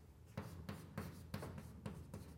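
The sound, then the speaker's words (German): Writing on a board during a lecture: a few quick, evenly spaced scraping strokes, faint and alone, with no talking. “Weil jetzt kann ich es, jetzt schreibe ich es nochmal vollständig hin.”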